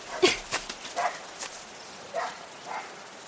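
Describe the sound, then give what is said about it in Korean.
A few short yips and barks from a dog playing fetch on a wide grassy lawn, sharp separate bursts spaced irregularly, moderately faint against a quiet background. “하운드독, 이리 와!”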